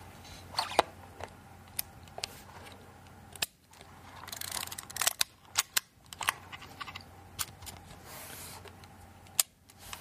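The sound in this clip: A camera shutter clicking through each exposure time in turn: many sharp mechanical clicks at uneven spacing, some close together and others with longer gaps of soft whirring between them, alone without voices.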